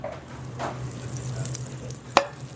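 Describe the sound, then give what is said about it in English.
Cold butter and squash sizzle in a cast iron pan, a steady crackling fry hiss throughout, broken near the end by one sharp knock. “with the cold butter in the pan and go right in with your squash.”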